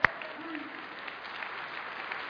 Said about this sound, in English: And so, there, you can clap for that.